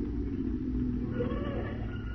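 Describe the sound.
Taxi cab engine rumbling in a steady low drone as it pulls up, a constant even sound effect with no talk over it.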